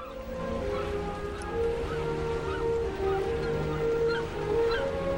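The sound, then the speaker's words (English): A boat speeds across a river with a steady engine drone and a continuous rush of water, holding at an even, moderate level throughout with no talk. “Seagulls fly over a boat as it speeds across a river.”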